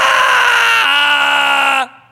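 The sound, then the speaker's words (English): One voice imitates the wailing and weeping of people burning in hell: a loud, high, sustained cry that drops in pitch partway through, then cuts off abruptly. “the Bible says there'll be weeping and gnashing of teeth, wailing. You can't see anybody. You're burning. And all you can hear is this.”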